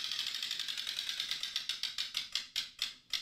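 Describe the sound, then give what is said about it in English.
A spun prize wheel clicks rapidly against its pointer, then slows. The ticks spread farther apart and grow more distinct toward the end until the wheel nearly stops. “I'm going to spin the wheel this week. Let's do it. Well, you ready for me to spin the wheel?”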